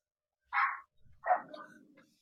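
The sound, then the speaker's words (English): Dogs barking: two sharp, fairly loud barks about half a second apart, with a softer low sound between them and a faint trailing tail after the second bark, without talk. “Excuse the dogs.”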